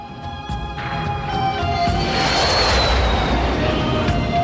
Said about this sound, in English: Another jet fighter tears low over the desert.